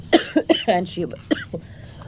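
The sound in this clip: A woman coughs in a series of sharp bursts, as if something is caught in her throat. Brief spoken words are mixed in among the coughs, which fade toward the end.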